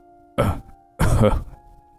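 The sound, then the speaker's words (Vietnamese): A man's coughing fit: two harsh bursts, the second longer and heavier, over a faint steady hum. “Ông ta ho lên một trận rồi ôm ngực mình.”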